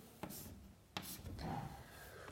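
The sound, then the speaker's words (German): Handwriting as a chemical structure is drawn, a few faint, short scratching strokes and soft rubbing, quiet and alone. “Und zwar schreibe ich Ihnen jetzt ein etwas komplexeres Diketon auf, nämlich dieser Struktur.”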